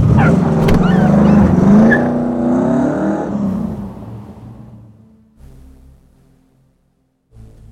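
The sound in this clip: A car engine revs and pulls away, its tone shifting as it drives off, then fades steadily to near silence over several seconds.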